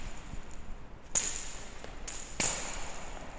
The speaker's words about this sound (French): Le son que vous entendez, c'est le son d'une balle dans laquelle ont été mis des grelots.